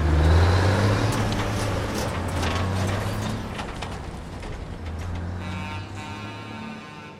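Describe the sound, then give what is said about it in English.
A car engine rumbles low and steady as the car pulls away, the throaty hum dropping in loudness partway through and continuing more quietly to the end, with no voices. “slams her door and drives off.”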